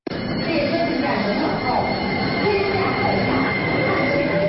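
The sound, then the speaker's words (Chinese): Beijing Line 15 subway train running under its automatic driving system: a steady, loud rolling rumble of the cars with thin squealing tones from the wheels drifting over it. “只要开启自动驾驶系统，列车就可以自动运行”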